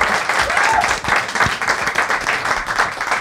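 Audience applause greeting the opening of a comedy show, a thick, continuous wash of clapping that stays loud and even throughout, with a few sharper individual claps poking through.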